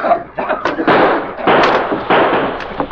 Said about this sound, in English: My gas bombs for you.